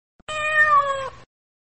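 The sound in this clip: A cat meows once, a clear, drawn-out call of about a second that falls slightly in pitch and stands alone with no other sound.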